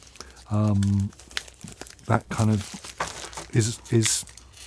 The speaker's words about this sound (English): So I'm taking it out of its plastic little plastic envelope, and then inside is